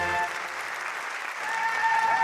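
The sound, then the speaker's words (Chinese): Audience applause: a dense, even clatter of many hands clapping throughout, swelling slightly louder near the end. “谢谢大家掌声。”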